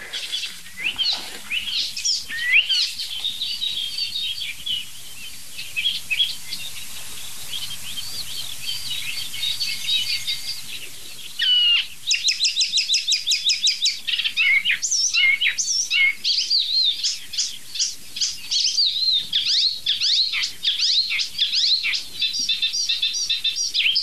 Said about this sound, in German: Meisen drin, Alarmanlagen, irgendwelche Vögel aus ferner Landschaft.